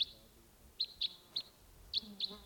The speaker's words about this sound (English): Yeah, no sign of it. Just the decoys calling there.